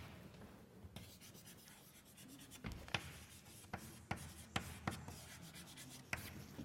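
Faint scratching of handwriting, likely chalk or pen on a board during a maths lecture, with irregular rubbing strokes and a few sharper taps spaced through the passage.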